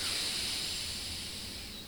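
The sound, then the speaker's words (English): Slow exhale through the left nostril during an alternate-nostril breathing exercise, a soft, steady airy hiss heard alone that fades slightly over about two seconds. “And then you exhale through the left nostril for 4.”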